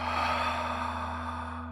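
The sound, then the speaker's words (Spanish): A person breathes out in one long, deep exhale during guided relaxation. The soft, breathy rush lasts nearly two seconds and eases slightly toward the end, over a steady low hum. “Inhala nuevamente y exhala.”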